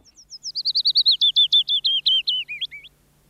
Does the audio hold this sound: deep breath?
no